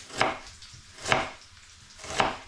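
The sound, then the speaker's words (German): A knife slicing down into a peeled, halved onion: three crisp, evenly spaced cuts, each a brief bright crunch against the board, with no talk. “dann einfach, wie ich dir mal gezeigt habe, von oben nach unten die Zwiebel einschneiden.”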